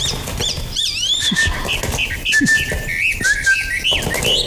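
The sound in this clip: A caged bird that has been blinded calls in a string of bright whistled chirps and slurred, rising sweeps, fairly loud and closely spaced.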